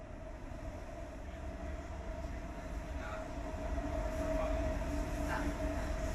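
Inside a travelling train, a steady low rumble and rolling noise carry on without a break, growing slightly louder toward the end, with no talk.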